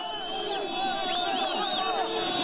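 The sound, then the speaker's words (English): Jubilant crowd cheering in Tobruk, Libya, after Gaddafi's opponents took control of the area: a dense, continuous wash of many voices with high, wavering calls rising over it, holding a steady loudness throughout. “That's the sound of jubilation in Tobruk, Libya, where opponents of Gaddafi have taken control of the area.”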